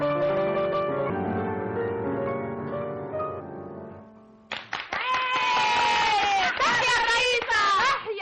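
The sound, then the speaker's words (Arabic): A crowd of women chants slogans in loud, overlapping, high-pitched voices that rise and waver together. Steady sustained tones come before the chant. “تحيا المصلحة الاجتماعية. كفاكن هتافا فقد نبحتن أصواتكن.”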